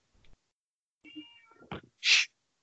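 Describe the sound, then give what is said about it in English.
A house cat gives a single short, faint meow, followed by a brief, loud, hissy burst of noise. “Don't start meowing at me, dude.”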